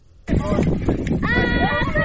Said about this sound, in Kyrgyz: Биз барган учурда койлорун талаадан айдап келип, короого камап жатышыптыр.